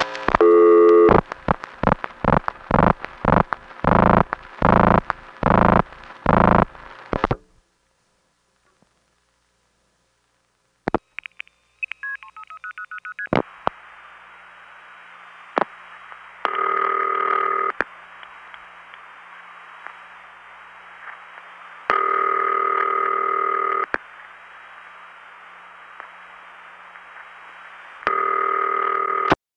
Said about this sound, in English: This next call is to a number 5 crossbar with city ring, the same ring that could be used on a step or a number 1 or a panel. But you'll hear, right before it starts to ring, it goes plup.